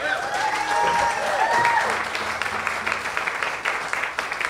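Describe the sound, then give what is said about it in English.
An audience at a live late-night comedy show applauds the guests. The clapping is dense at first, with a voice whooping over it, then continues more raggedly with scattered individual claps. “How about a hand for all the guests so far?”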